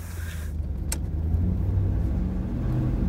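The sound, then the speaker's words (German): A car driving on the way to a village in the Wendland region of Germany, its engine a steady low rumble with continuous road noise running unbroken through the whole stretch. “Ich fahre nach Molchefitz.”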